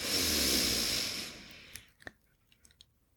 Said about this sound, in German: einmal tief einzuatmen über die Nase